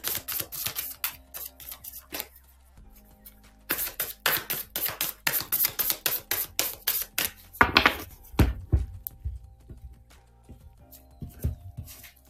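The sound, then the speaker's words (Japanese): Oracle cards are handled and drawn from a deck, making many crisp, rapid clicks and flicks in quick bursts. There is a short pause early on and softer rubbing and shuffling later, with no voices. “ちょっとアドバイスカード、オラクルカードで引いていきましょうね。”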